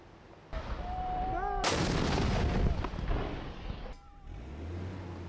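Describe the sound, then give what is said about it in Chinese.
Artillery and heavy machine gun fire as government forces shell rebel positions in Taiz province, Yemen: a few loud booming blasts with rumbling tails and rattling cracks between them. “在也门西南部塔伊兹省也门政府军持续向胡塞武装阵地发动炮火并使用重机枪等武器向胡塞武装发起打击”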